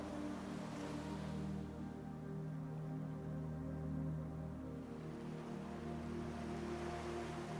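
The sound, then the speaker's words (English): Small ocean waves wash gently onto a shore in a soft, steady hiss, with a faint surge early on, under a sustained low droning tone. “You notice a small wave comes and partially washes away your name.”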